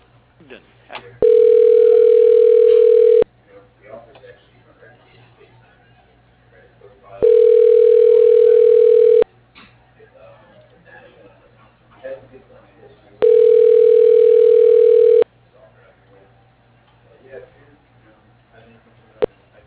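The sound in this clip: A telephone line tone sounds while a call is transferred on an office phone system that forwards to voicemail: three steady, even mid-pitched tones, each about two seconds long, separated by long quiet gaps.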